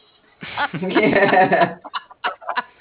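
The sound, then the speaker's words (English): A rooster crows in a long, strained, raspy call lasting over a second, followed by a few shorter, broken bursts. “finally, the rooster actually can play a part in this”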